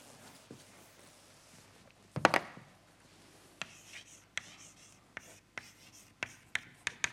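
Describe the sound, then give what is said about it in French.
Handwriting of an equation during a mathematics lecture: faint scratchy strokes, a brief louder burst of rubbing, then many short crisp pen taps and strokes in an uneven rhythm. “je réécris l'équation KPZ.”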